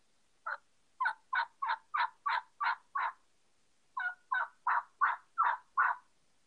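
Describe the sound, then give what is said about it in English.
Turkey yelps made on a yelper call and deepened to sound like a jake: two runs of short, raspy, evenly spaced notes, eight and then six, with a brief pause between the runs and no talk. “All I did is took that same call and deepened the yelp and cleared it off at the end where it was more like a honky sound. Yeah. And it sounded like a Jake yelp.”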